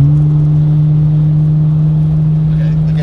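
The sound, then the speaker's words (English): A car exhaust roaring: a loud, steady, low engine drone that holds at one pitch for the whole three seconds. “his exhaust will kick in and it will just sound like... I'll give you a slight taste if you can hear this.”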